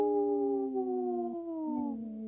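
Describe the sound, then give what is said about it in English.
Voices imitate a wolf howl: a sustained, harmonic howl of about two seconds whose pitch slowly sinks, with overlapping tones suggesting more than one voice howling together. “Howling for Wolves, protecting wolves for future generations. Howl!”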